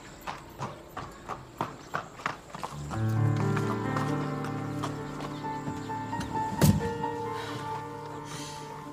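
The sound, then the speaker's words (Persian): Hooves of a horse-drawn carriage clip-clop in a steady, even rhythm. A sustained tonal hum joins partway through, and a single sharp knock sounds near the end. “کفایت خاتون به روشن نگاه میکنه و سوار کالسکه میشه.”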